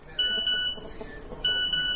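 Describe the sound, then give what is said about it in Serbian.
Phone message notification beeping, two quick double beeps of bright electronic tone with a short gap between the pairs, over a faint background. “Budi me poruka.”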